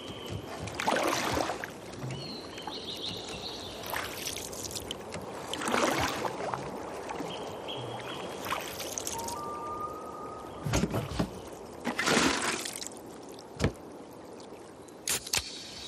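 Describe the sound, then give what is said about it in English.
A canoe floats on water in a Coors Light beer advert, with soft water sloshes and splashes coming in irregular, fairly quiet bursts. “Made to chill in a canoe holding a beer instead of a paddle.”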